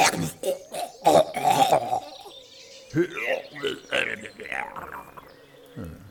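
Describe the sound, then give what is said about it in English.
A voice imitates a phlegmy cough that ends in a gurgling death rattle: rough, throaty bursts in the first two seconds, then a run of strained, gurgly vocal noises that continue to the end. “More phlegm, sir. With a sort of gurgly death rattle at the end.”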